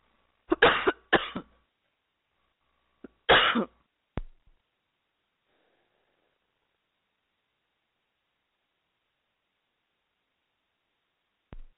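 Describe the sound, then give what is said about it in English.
Coughing from one person: a few harsh coughs in a tight cluster, then a shorter pair and a sharp click. After a long silence, one last brief cough comes near the end. “I am so sorry about that. I got a cough. And it just came on me. So I apologize if you heard that in volume.”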